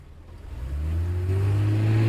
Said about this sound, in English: Sonny puts the window up, then starts the engine.